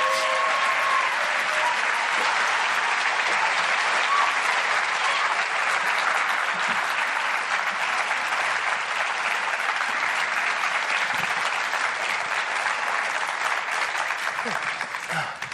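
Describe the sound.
Sustained audience applause welcomes two speakers to a dialogue on faith, sexuality and gender. The dense, even clapping holds steady for the whole stretch, easing only slightly at the very end.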